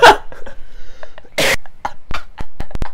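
Coughing and throat clearing from a person with phlegm caught in the throat: a harsh opening burst, a longer rasping hack, then a quick run of short, sharp coughs, fairly loud with no talking.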